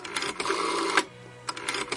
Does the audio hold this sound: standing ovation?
no